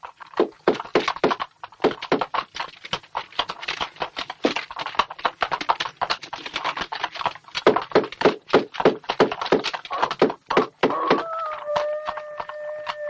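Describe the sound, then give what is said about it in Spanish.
Rapid hammering as wooden planks are nailed across a shop door on a street during an epidemic: many sharp, uneven thunks in quick succession, with a steady tonal sound entering near the end. “Dos jóvenes sellan con tablones la puerta de un establecimiento.”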